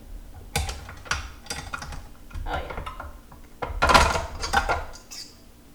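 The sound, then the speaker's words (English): A mixing bowl is taken off a stand mixer while baking, making a series of sharp clicks and clattering knocks. The louder bursts of clatter come near the end. “Okay, so it's off the stand mixer.”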